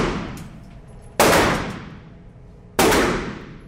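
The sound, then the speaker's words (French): Gunshots fired by a neighbouring shooter during target shooting: two loud, sharp cracks, each trailing off in a long fading tail, with the tail of an earlier shot dying away at the start. “Ça, c'est le voisin qui tire, c'est pas lui.”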